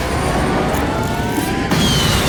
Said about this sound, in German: Alle legten ihre Pfoten auf die Bildschirme. Und der Jet hob ab.